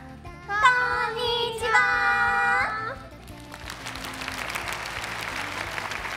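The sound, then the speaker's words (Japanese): Audience applause at a public recording, a dense patter of many hands clapping that swells in about halfway through and carries on steadily to the end. “もっともっと拍手いけるんじゃないですか。もっといけるんじゃない。”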